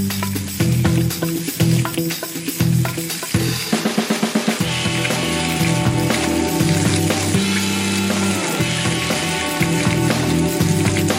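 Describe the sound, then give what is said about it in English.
Food sizzles as it fries, a dense continuous hiss with brief clattering bursts in the first few seconds before settling into a steady crackle. “Smell that cholesterol cooking there. Always gotta let that sizzle. I love that sound.”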